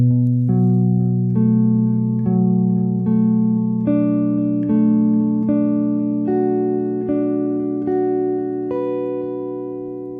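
A six-string guitar chord, index finger barring all strings and third finger on the ninth fret of the A string, plucked again and again at an even pace, each stroke ringing out with sustained notes and the level slowly fading.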